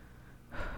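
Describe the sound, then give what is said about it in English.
A deep breath drawn in before speaking on a late-night voicemail: a soft, airy inhale that swells in the second half, quiet and alone. “And another deep breath for good luck, I guess.”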